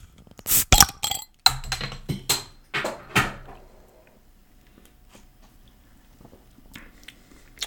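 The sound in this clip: A beer being opened, a mild IPA, heard as a few sharp clicks and pops close together near the start, then one more pop, fading into quiet with faint rustling.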